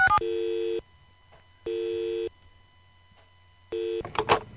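A telephone call is placed: brief dialing tones open, then three steady, evenly spaced ringing beeps follow with silent gaps between them, and a short, noisy clatter ends it.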